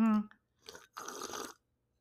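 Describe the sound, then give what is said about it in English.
A glass picked up and sipped from: after a short vocal sound, a soft brief knock is followed by a quiet half-second sip, then silence. “I picked up my glass like I'm about to do right now. Picked up my glass.”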